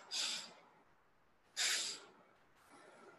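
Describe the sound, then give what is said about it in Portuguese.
Forceful exhales through the nose during guided breathing practice: two strong, breathy snorts about a second and a half apart, then a third, much softer puff of air. “Não, agora você é só pelo nariz. Sopra pelo nariz.”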